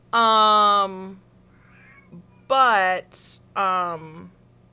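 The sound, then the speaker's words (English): A cat meows in a room: three loud, drawn-out cries with a bright, high tone, the first the longest, separated by quiet gaps with faint small sounds. “I don't know how much of it gets picked up on the background, but Onyx is in here meowing.”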